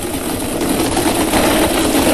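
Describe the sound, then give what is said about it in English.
A spinning birthday ball draw machine gives off a steady whirring, motor-like hum with a faint rattle. The sound stays at an even loudness throughout and plays alone with no talk. “All right, let's spin these birthday balls, hey? All right, let's do it. Let's go.”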